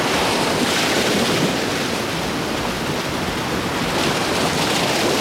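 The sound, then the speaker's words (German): Waves washing onto a beach, recorded on holiday: a steady, loud rush of surf blended with wind noise, with no voices. “Ich habe in Urlaub an Sie gedacht, meine Damen und Herren, und die Aufnahme dort am Strand direkt begonnen.”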